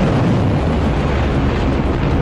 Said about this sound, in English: Iranian state media released video of what it says are cruise missiles being fired from Iran.